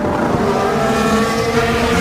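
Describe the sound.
A Formula 1 car's engine drones as it enters the pit lane at the 2023 Hungarian Grand Prix, a steady, loud, buzzing tone held for two seconds.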